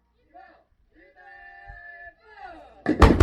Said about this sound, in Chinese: 刚刚射击的是 M119 各连第一炮，目标区在前方海域。